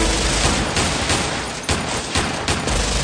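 Rifle gunfire aimed at a window, a dense and loud fusillade of rapid shots that runs continuously for about three seconds with no pauses and no voices.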